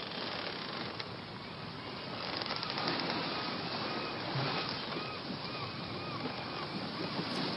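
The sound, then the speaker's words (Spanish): Sound effect of a pirate ship sailing toward Tortuga Island: a continuous rushing roar of sea waves and water wash with faint creaks mixed in, steady throughout with no voices. “Este buque sigue navegando, acercándose a la isla Tortuga, tripulado por piratas que no reconocen autoridad en el mar ni en la tierra.”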